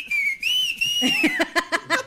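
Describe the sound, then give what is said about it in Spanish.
Greeting whistles sent as a welcome: a long, clear whistled note that wavers up and down in pitch, followed by several shorter rhythmic bursts. “Unos chiflidos acá, mira, déjate lo enseño”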